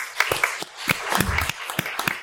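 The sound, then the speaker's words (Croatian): Scattered audience applause for a guest at a talk event, made of irregular, fairly sparse claps at moderate level that rise and dip without a steady rhythm. “E, još jedan pljesak za Igora.”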